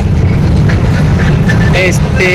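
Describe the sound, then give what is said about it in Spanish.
Steady low road rumble from a car driving on the road to Tenejapa, Chiapas, a continuous dense drone with faint higher tonal traces drifting above it throughout. “Si usted aprecia ese ruido que se escucha al fondo, es porque va en carretera, va allá a Tenejapa.”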